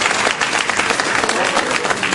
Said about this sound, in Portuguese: E agora vocês vão dar aquela melhor salva de palmas que vocês não deram até hoje ainda. É pra arder a mão